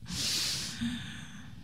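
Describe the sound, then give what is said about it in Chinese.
A deep inhale during a breathing exercise done while slow jogging: one soft, airy hiss of drawn-in breath that fades after under a second, leaving a faint breathy tail. “所以呢一起来深吸缓吐，来吸气”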